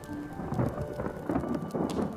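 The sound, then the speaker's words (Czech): Distant thunder rolls in low, muffled swells over steady rain, several soft rumbles rising and fading in turn. “a v dálce zase zahřmělo.”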